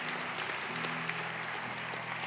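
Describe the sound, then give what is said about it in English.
Congregation applause during a church service after a prayer: a steady, faint wash of many hands clapping together, with no voices standing out. “Let's give everybody that prayed that prayer, lifted their hands, just a real round of applause.”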